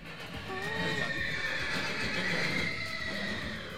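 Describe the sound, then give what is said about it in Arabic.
A horse whinnies, giving one wavering, high neigh early on over a steady, noisy background. “وترى في حصان اسمه طلال هناك”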